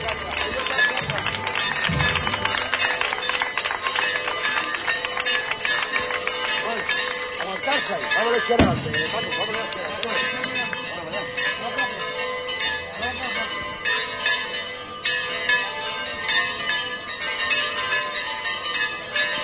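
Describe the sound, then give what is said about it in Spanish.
Church bells of a sanctuary ring together with other bells on the feast day of the patroness of Huelva. The peal is loud, dense and continuous, with many overlapping metallic strikes and sustained ringing throughout. “Momento en el que se suma el campanil del propio santuario. Ambos sonando al unísono.”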